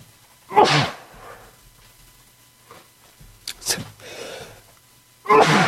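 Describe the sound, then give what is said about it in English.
Someone sneezes: sharp, loud, breathy bursts separated by quieter pauses, with a few sneezes spread across the stretch and no talk over them. “sorry about that. You never can sneeze on the break. It's always during the show.”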